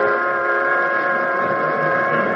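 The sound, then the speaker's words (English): A factory whistle blows in a flag-making factory, a loud, steady multi-tone blast that holds level without a break. “The whistle blew. I'm getting ready to go home.”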